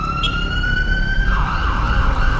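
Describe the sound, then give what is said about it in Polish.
An ambulance siren wails from a vehicle stuck in traffic in a city centre blocked by a protest march. It holds a loud, steady tone that turns into a rapid warbling pattern midway, over constant low traffic rumble. “w korku utknęła nawet karetka na sygnale”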